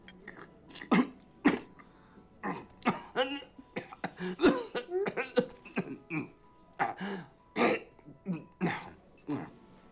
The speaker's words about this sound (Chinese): 爷爷，你慢点喝，不然你噎到怎么办？